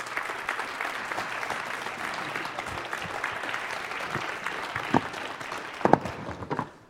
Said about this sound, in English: would you help me, would you put your hands together and welcome Craig Walker to our stage as he comes and shares with us?